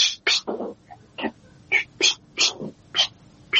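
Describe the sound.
A cat moving about restlessly in a room, heard as a series of short, sharp bursts at an irregular rhythm, with brief quiet gaps and no talk.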